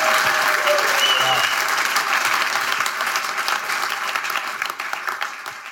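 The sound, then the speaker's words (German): An audience applauds during a church worship service with loud, dense, sustained clapping from a crowd and voices mixed in. The applause fades gradually toward the end. “Why don't we give Jesus just a shout of praise in this place. Lass uns einfach Jesus einen Applaus und einen Siegesruf geben.”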